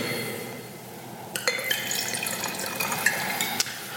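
Wine, fermented on its skins, being poured into a glass: a soft, continuous liquid splash, fairly faint and steady throughout.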